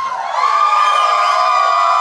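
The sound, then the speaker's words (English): A live audience at a show in Austin, Texas cheers and whoops loudly, holding a sustained roar for about two seconds. “Our listeners are so on point because they cheered for when you had an almost full Pokédex.”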